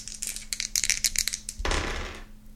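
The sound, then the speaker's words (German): A die being rolled: a second and a half of quick, bright clattering clicks, followed by a denser, duller rush of noise that fades away. “Guck, jetzt habe ich wieder meinen richtigen Würfel, der auch tut. Ich würfel jetzt eine 70.”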